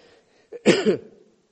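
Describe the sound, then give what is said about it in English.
A single rough, forceful cough comes from a person, with a short catch of breath just before it, against near-silence. “excuse me, joining with everybody else coughing”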